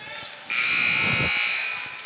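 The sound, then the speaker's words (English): A basketball game buzzer at a high school boys' game sounds abruptly after a quiet moment, a loud, steady electronic drone that holds for about a second and a half before easing off, with a voice faintly beneath it. “There's the buzzer, 11.9.”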